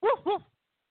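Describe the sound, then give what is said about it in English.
A human voice imitates a dog barking with two short, gruff woofs in quick succession, followed by silence. “Woof, woof,”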